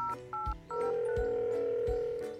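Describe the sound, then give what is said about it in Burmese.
Telephone being dialed for a call: a few short keypad beeps in quick succession, then a long steady tone that holds to the end, with soft low thuds underneath. “ဒီလိုအကြံရတော်တာနဲ့ရှင်ရှင်ရအန်ဒီကြီးစီကိုဝမ်းတာအားရနဲ့ဖုန်းဆက်လိုက်ပါတယ်”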